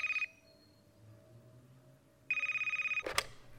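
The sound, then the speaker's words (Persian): A telephone rings in an office with a call from an elderly care center: two bursts of bright, trilling electronic ringing separated by a quiet pause, then a sharp clack, all without speech. “یه روز تو دفتر کارم بودم که از مرکز مراقبت از سالمندان با هم تماس گرفتن.”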